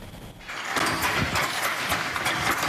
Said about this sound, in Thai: เสียงขี่กระทบเส้นได้เป็นจังหวะแต่ละเส้นถูกถักทออย่างประณีตจนกลายเป็นผืนผ้าที่มีเอกลักษณ์เฉพาะตัว